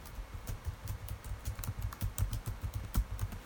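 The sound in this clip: Someone types an answer on a computer keyboard with many quick, quiet key clicks in an uneven, continuous rhythm.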